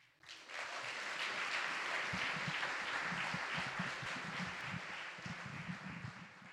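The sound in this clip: Audience applause welcoming a speaker to the front: dense, steady clapping that swells in within the first half second, holds at an even level, then eases slightly toward the end.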